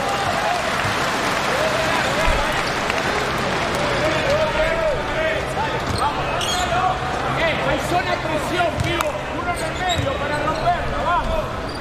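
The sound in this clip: Applause and crowd noise fill a basketball arena during a game featuring the Chinese team, a dense, continuous wash of clapping and cheering with sharp transients scattered through it.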